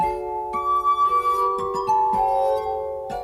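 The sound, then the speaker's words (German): Glass harmonica played by fingers rubbing rotating nested glass bowls of different sizes, giving a few sustained, pure ringing tones that shift from note to note, with a pulsing wobble early on, fairly soft and heard alone. “Bei der Glasharmonika werden Töne durch Reiben mit den Fingern erzeugt. Das Instrument besteht aus unterschiedlichen großen, ineinander geschobenen Schalen aus Glas, die in Rotation gebracht werden,”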